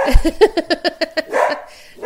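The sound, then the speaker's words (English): A dog barks in a quick series of sharp, loud yips and barks over about a second, followed by a softer, breathy whine. “Yes, see, the dog agrees with me.”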